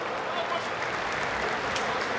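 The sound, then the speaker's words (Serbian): A football crowd applauds a young Red Star player, an even, continuous wash of clapping from many hands that holds at a steady level for the whole moment. “Još jedna intervencija Fergusona, ali aplauzi za mladog futbolera Crvene zvezde.”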